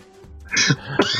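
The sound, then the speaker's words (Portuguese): Coughing and throat clearing after choking on something, two harsh, loud bursts in quick succession, the second one sharp and abrupt, with no talk. “engasguei aqui.”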